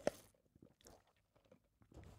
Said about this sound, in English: I'll take another sip of my coffee and take a breath.